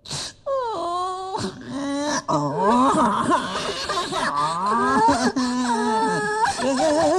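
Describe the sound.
A voice imitating frightened forest animals wailing and crying: a long run of drawn-out, wavering whimpers and moans, rising and falling in pitch, with brief breaks between cries.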